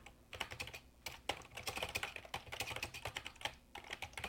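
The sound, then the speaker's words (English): Typing on a computer keyboard: many rapid, faint keystrokes clatter in quick bursts, with a few brief pauses. “Whoop, if I can type right.”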